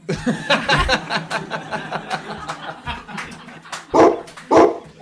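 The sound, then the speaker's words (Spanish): A dog gives two loud, sharp barks close together near the end, after a busy stretch of mixed background sound. “Seguramente con un ladrido.”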